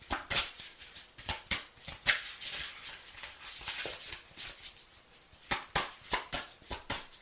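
Playing cards being drawn and dealt one after another: many crisp, papery flicks and snaps in an uneven quick rhythm, with a brief softer stretch in the middle, no voices.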